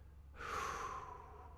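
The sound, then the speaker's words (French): A person exhales slowly during a calming breathing exercise. The soft, breathy airflow begins after a short quiet moment, then holds steady and gently tapers, faint and unvoiced, with no words spoken. “Vide tes poumons, expire.”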